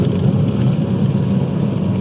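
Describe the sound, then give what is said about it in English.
Car engine rumbles steadily while driving slowly around short residential blocks, a constant low drone with no voices over it. “let's go past the place and drive around the back and check out the back entrance.”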